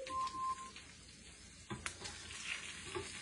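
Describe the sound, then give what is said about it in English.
A raw burger patty sizzles and fries in a pan, a faint, steady crackle broken by a brief knock partway through as it is flipped. “I still see some raw burger, just way too raw. You can see it coming out there. So I am gonna have to flip this once again.”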